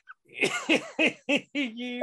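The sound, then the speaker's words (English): A short run of five raspy, voiced coughs comes in an even rhythm, the last one dragging into a longer throaty sound, moderately loud with no talk. “that's not a tickly COVID cough, is it?”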